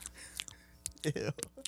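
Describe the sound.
A person imitates ASMR with quiet whispering and wet mouth clicks and smacks, coming in short, irregular bursts.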